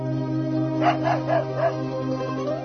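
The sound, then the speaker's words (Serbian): A dog lets out a few quick barks and yips in a short burst, moderately loud and set against steady, sustained musical tones. “Idi pogledaj. Vidi, pas.”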